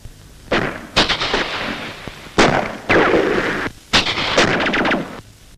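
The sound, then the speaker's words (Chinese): Fierce gunfire aimed at the enemy in a battle scene: loud bursts of shots with rattling, sustained noise between them, several heavy volleys in quick succession. “方连长朝敌人猛烈射击，却发现子弹已经用尽了”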